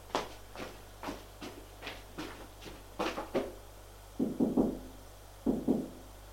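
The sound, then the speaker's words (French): Knocking on a bedroom door: a few soft, dull raps in two short groups near the end, after a run of faint, evenly spaced clicks. The whole clip is quiet. “Et Pierre va frapper à la chambre d'Éric.”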